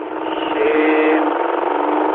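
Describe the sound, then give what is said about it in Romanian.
Many motorcycles pass in the oncoming lane on a road down from Brașov toward Măieruș. Their engines form a steady, muffled drone that swells in the middle and then eases slightly. “vedem aici, în contrasens, au venit foarte mulți motociclisti.”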